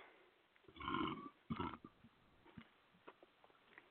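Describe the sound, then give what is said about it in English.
A burp, a low, croaking belch in two rough swells close together, followed by a few faint small sounds in otherwise quiet surroundings. “The burp. The burp.”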